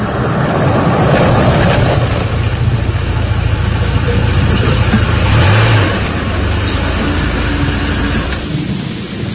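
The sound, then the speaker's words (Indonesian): A car engine rumbles under heavy rain as the vehicle pulls over by a roadside stall in thick fog, a loud, steady wash of noise that eases a little after the midpoint. “hingga tak lama datanglah sebuah kendaraan yang menepi di warungku.”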